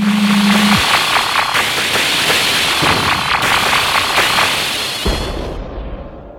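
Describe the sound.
Cadets at shooting practice fire rapid, repeated sharp shots over a steady roar, opening with a brief low hum; a heavier thud comes near the end before the sound fades.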